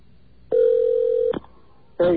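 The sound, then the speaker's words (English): The ringback tone of an OmniPoint GSM phone being called: a steady mid-pitched tone lasting under a second, a short pause, then the start of a second identical tone. “the OmniPoint GSM phone that he is using will perform better than last week. Let's see what happens. That's the sound of it ringing now.”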